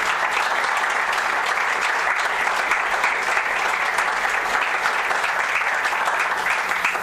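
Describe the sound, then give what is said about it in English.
An audience applauds after a university address announces record student enrollment, a steady, dense wash of clapping that holds at an even level for about seven seconds. “I think you ought to clap for that.”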